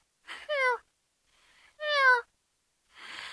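A cat meows twice, two clear, bright, drawn-out cries separated by a pause, followed by a short breathy rustle at the end.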